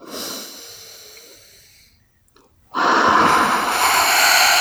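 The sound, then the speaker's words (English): A deep breath is drawn during a calming exercise: a long, soft breathy rush fades away, a short silent pause follows, and then a louder, stronger breath rushes out. “Good. Deep breath.”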